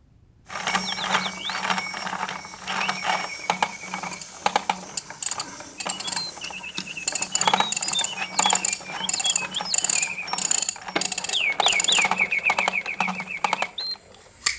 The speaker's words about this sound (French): Je remonte et enclenche tout mon zoo mécanique pour des amis de passage.